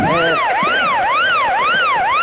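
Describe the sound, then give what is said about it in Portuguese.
A loud siren wails, like an ambulance, its pitch sweeping up and down about every half second in a steady, rapid cycle. No other sounds accompany it. “Não está com tosse, parece uma ambulância.”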